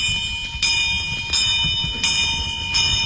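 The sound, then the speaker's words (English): Alarm bells ring out as fire spreads through rows of crumbling old buildings, a loud, high, continuous ringing that swells in regular pulses about four times. “When the alarms broke out”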